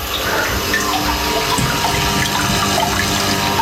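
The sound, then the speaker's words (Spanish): Water trickles and splashes continuously from an indoor fountain with a Buddha statue, a steady, fairly loud babble with no clear pauses and no voices. “¿Escucháis la fuente?”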